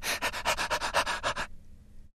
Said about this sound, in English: By the way, if you don't know what panting means, this is the sound of panting.